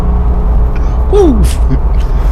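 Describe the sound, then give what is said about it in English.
An air-cooled Porsche engine rumbles steadily, deep and loud throughout, as a brief spoken exclamation rises over it. “there's nothing like the authentic sound of an air-cooled Porsche.”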